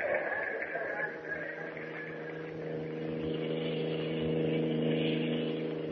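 Steady, even hum of a car engine while driving along a road toward a naval base, continuous with low tonal drone and a slight swell in loudness toward the end.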